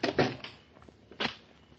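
A door being pushed shut in a darkened room: two dull wooden thuds about a second apart, the first slightly louder, with quiet between them.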